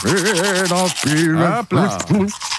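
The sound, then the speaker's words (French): A man brushes his teeth with a toothbrush while humming a tune, his melodic, wavering hum running over the steady scratchy rub of the bristles. “prend la brosse à dents et chantonne en même temps et ça donne ceci”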